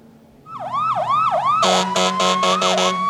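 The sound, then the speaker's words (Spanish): City traffic jam noise: a wailing siren sweeps up and down several times, then a rapid series of loud, blaring horn blasts sounds over a steady high siren tone. “Bueno, hay muchos ruidos. Sí. Embotellamiento. Sí, embotellamiento, ciudad, ciudad.”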